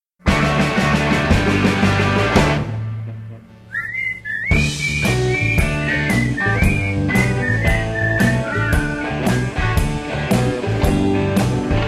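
A whistled tune rides over a steady backing track. The melody enters after a brief dip in the music and carries on over the beat, clear and prominent.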